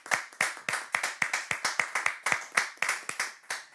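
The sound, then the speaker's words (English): Steady rhythmic hand clapping welcomes a bishop at the start of a Q&A session. Many sharp, evenly spaced claps come at about three per second, with no talking. “as always, with some emojis, some claps, some shouting, and some dancing, and please join me as I welcome our very own Bishop, Bishop James Hansen-Saki, for us to start the Q&A session.”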